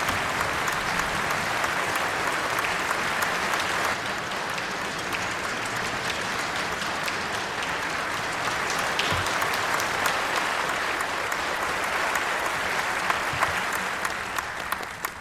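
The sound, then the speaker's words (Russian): A concert audience stands and applauds as the conductor appears from behind the curtain: thick, continuous clapping from many hands, loud and steady throughout with a slight dip early on. “Станислав появился из-за занавеса. Все зрители стояли и аплодировали ему.”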